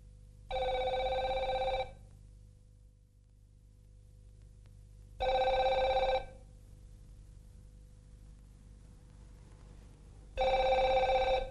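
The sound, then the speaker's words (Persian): Telephone ringing after a number is dialled: three evenly spaced rings, each lasting about a second, separated by long silent pauses, clear and alone with no talk. “محمود بی حوصله شماره میگیرد.”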